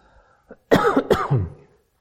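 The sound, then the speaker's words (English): A person coughs: a small throat sound, then a burst of harsh, rough coughs with a throat-clearing quality, loud against an otherwise quiet background. “I thought a cough drop was supposed to stop the coughing. Must make me cough.”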